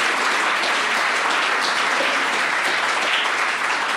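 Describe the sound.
Sustained audience applause welcomes a guest speaker to a talk on economics and health, a dense, even wash of many clapping hands holding steady at a loud level for the whole stretch.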